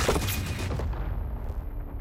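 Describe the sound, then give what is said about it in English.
Soldiers shoot at a sniper hidden in a tree. A dense, noisy volley of gunfire cuts off sharply and leaves a fading wash of echoing noise. “Oh no! They have finally spotted her! They are firing at her!”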